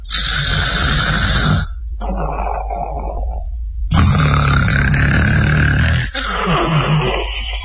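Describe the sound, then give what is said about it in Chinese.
A storyteller imitates loud snoring with his voice: a few long, rough, rumbling snores, each a drawn-out rasp, separated by short pauses. “躺那之后，一会儿的功夫，李逵就打上呼噜了。”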